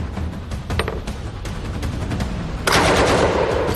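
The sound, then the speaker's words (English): A Czech-designed Bren light machine gun, rated at up to 500 rounds a minute, fires a dense, rattling stream of sharp reports. The burst sounds loud throughout and turns harsher and brighter toward the end. “With a range of 600 yards and firing up to 500 rounds a minute... Have some of it. The Czech-designed Bren became one of the most iconic British weapons of World”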